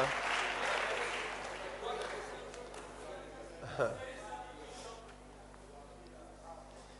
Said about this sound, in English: So I don't know why you are clapping.